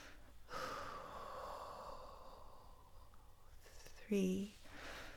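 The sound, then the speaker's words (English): A long, steady exhale during a guided breathing exercise, an airy rush of breath lasting several seconds, followed by a brief, louder voiced snort-like burst. “Now give it a big exhale for 7 seconds.”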